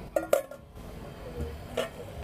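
Hard clinks as a lid goes onto a slow cooker: two sharp knocks close together, then a third a moment later, all fairly soft and with no talk.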